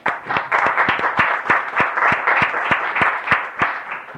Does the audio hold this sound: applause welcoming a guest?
yes